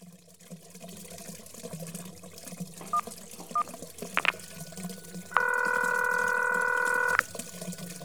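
A telephone is dialed to call an apartment caretaker: a few short keypad beeps come first, then a longer steady electronic tone, over a faint background hiss.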